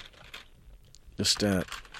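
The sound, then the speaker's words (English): Faint keyboard typing as a name is entered into a slow computer system, with soft scattered key clicks and a brief burst of voice in the middle. “Type in the name there. Just typing it in.”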